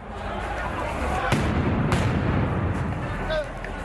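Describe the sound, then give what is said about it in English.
A police officer fires rubber bullets at people looting a store in central Johannesburg. Two sharp, faint bangs cut through a dense, steady roar of street noise. “A policeman fires rubber bullets at people looting a store in central Johannesburg.”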